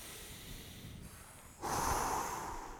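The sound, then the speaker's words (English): A deep human breath in and out, a soft, airy, hissing rush of air that grows noticeably louder and fuller partway through, quiet and steady with no talking. “Let's take another deep breath. Ready?”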